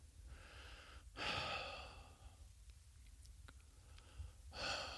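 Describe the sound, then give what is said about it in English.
Two deep, airy breaths, each a broad rush of air sounding clearly above a quiet, slightly noisy background, with a pause of a few seconds between them. “let's take a breath.”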